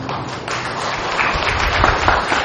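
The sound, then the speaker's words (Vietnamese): Audience clapping at a Vietnamese Buddhist dharma talk: a sustained, dense patter of many hands that swells slightly louder toward the end. “Vỗ tay là được hay không?”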